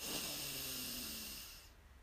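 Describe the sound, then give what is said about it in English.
A person takes a deep breath in during a breathing exercise. It is one long, airy hiss of inhaled air that holds steady for about a second and a half, then tapers off, faint and alone. “So deep breath in”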